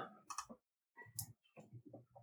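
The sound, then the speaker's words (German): Faint clicking as a button is pressed: a few quick ticks in short bursts with gaps between them, and no talk. “einen Knopf drücken”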